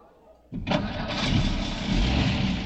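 A car engine starts on a windy night: after a short quiet stretch it catches abruptly with a rough burst, then settles into a steady, full-bodied idle that holds to the end.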